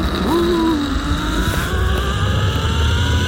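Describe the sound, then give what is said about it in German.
Steady rushing whir of a trolley running along a steel cable on a zip line ride of over 200 meters above a reservoir. The sound is loud and continuous, with a whining tone and wind roar throughout. “So klingt es, wenn man in luftiger Höhe an einem Seil über die Talsperre Pöhl flitzt.”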